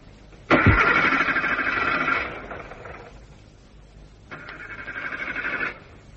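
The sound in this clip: A car engine is started twice. A sharp click opens a loud, churning roar of about two seconds that dies away, and after a pause a second burst of similar pitch rises and cuts off. No one speaks.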